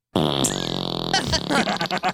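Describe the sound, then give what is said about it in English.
A voice imitates a fart with a loud, buzzy, lip-rasping raspberry lasting about a second, followed by a few choppy vocal bursts. “did you just fart? I just tooted.”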